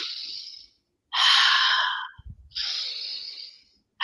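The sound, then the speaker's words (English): Conscious breathing for a breathwork exercise, drawn in through the nose and released out through the mouth: three long, airy breaths of about a second each with short quiet gaps between them, and another breath beginning at the very end. “We're going to take 10 conscious breaths into the nose, out through the mouth. So it just looks like this.”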